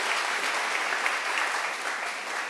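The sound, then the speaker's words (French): Applause from an audience clapping during a worship service, a dense, steady patter of many hands that holds evenly for a few seconds with no voices above it. “Let's give a clap for this form.”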